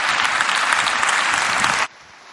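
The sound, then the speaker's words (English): An audience claps to welcome a speaker. The clapping is dense and steady, then cuts off abruptly near the end, leaving near silence. “Go ahead and put your hands together.”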